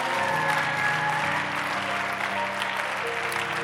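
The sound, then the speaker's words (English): Applause from an audience at a religious gathering, a dense and steady wash of clapping that holds evenly throughout, with faint tones beneath it. “Those who just clapped, you are receiving”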